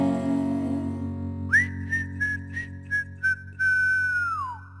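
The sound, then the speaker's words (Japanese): A person whistles a melody over steady background music. After a short instrumental lead-in, there are several short whistled notes, then one long held note whose pitch drops at the end. “でもまた晴れる日も来るから口笛でも吹いて”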